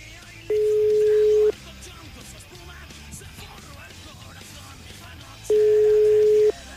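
Telephone tone on a live call that is not connecting: two steady, mid-pitched tones of about one second each, roughly four seconds apart, over low background noise.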